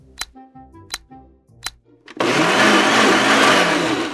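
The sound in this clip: An electric blender blends a fruit smoothie of almond milk, mango, pineapple, cinnamon, yogurt, honey and kale. A few short tonal hits come first, then the motor starts loud and runs in a steady, dense whir until the end.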